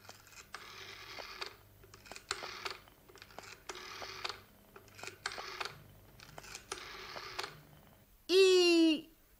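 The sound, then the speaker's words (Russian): A telephone receiver is picked up and a number is dialed: several separate groups of rapid mechanical clicks, then a loud, steady warbling tone at the end, with no voices. “Снимаете трубку, набираете номер.”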